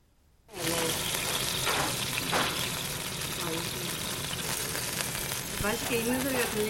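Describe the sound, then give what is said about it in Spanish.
Steady sizzling of stuffed squid slices, dipped in beaten egg, frying in a pan. A loud, continuous crackle starts abruptly after a brief quiet moment and holds evenly to the end. “la hija de la anciana Yun Bokcha corta el calamar relleno en rodajas y lo fríe en la sartén, después de pasarlo por huevo batido.”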